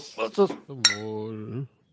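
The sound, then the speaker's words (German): Glasses clink together in a toast, one bright, short chime, set among voices raised in a cheer. “Bevor wir starten, möchte ich euch bitten, erhebt das Glas und Prost. Prost.”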